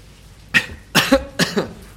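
Harsh coughing from someone who has just inhaled coffee: a short fit of a few loud, raspy bursts with brief gaps between them, heard alone with no talk.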